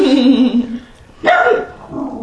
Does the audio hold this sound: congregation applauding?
no